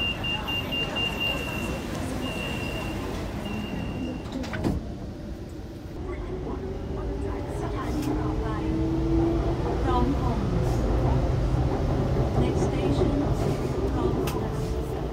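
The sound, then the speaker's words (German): A passenger boards and rides a city rail train. A constant low rumble of the carriage is heard, with a brief door-like clatter and a motor whine that rises as the train moves off, and voices talk underneath. “Vor dem Supermarkt, vor dem Restaurant, am Einkaufszentrum, aber jetzt erstmal in die Bahn.”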